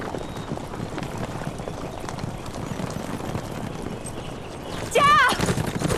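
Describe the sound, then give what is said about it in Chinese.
Horses ridden at a hard, sustained gallop, their hooves drumming in a steady, rapid clip-clop that holds throughout and grows louder toward the end. “这么一直跑下去，马要炸碎啊！咱们让马走一会儿。”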